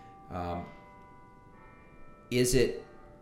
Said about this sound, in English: I'm sorry, the bell's got me.